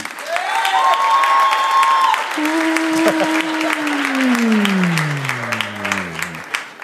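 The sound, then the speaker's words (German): Audience applause at a quiz show: steady, dense clapping runs through the whole stretch while loud electronic tones glide and then slide downward over it. “Und jetzt euer Applaus für Tobi.”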